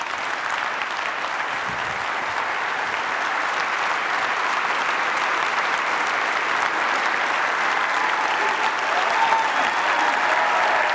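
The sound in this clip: Loud, sustained applause from an audience giving a warm welcome home to a couple after the husband's imprisonment in Manila. The dense clapping holds steady for the whole stretch and swells slightly toward the end.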